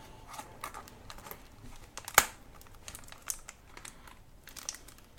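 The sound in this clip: Plastic foil wrapping being torn open on a package: irregular crinkling and crackling throughout, with one sharp, loud rip near the middle and quieter rustles after it.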